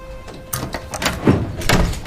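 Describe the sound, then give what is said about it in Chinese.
A door being opened: a few short knocks and clunks, then a louder rattling thump near the end, all fairly quiet and with no talk over it. “你把门打开说呗。”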